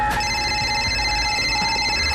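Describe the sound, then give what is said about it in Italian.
A mobile phone ringing with sustained electronic tones held at several steady pitches. It sounds loud and continuous through the short span over a low, noisy background. “Chiamano al cellulare.”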